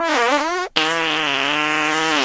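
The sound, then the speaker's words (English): Two fart noises with no talk. A short, wobbling one is followed after a brief break by a longer, steadier buzzing one. Both are loud and clear. “I want to play a whole, like, all of these fart noises every time I drive by.”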